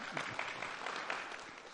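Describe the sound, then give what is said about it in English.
Audience applause in a church, a dense, steady patter of clapping that holds evenly through the short moment, with faint voices briefly showing through. “I appreciate that applause for her. That was a much stronger applause than for the being a Texas Aggie, even though I appreciate the spattering of that.”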